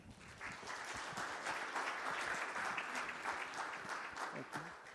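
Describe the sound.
Audience applause welcoming a speaker at a presentation on CBM and Project Amazonas: dense, steady clapping that holds at an even level for about five seconds without a clear break.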